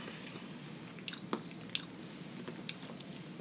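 Someone chews a piece of 86% dark chocolate, making soft crunchy bites and moist mouth sounds. A few faint, sharp snaps stand out over quiet background hiss.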